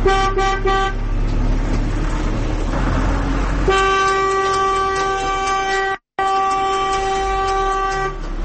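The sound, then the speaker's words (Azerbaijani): Car horns honk in traffic: a brief burst of toots, then long, loud, steady-pitched blasts broken by one short pause, over a low rumble of road noise. “Maşınların siqnal verməsi öz-özünə çox böyük problem.”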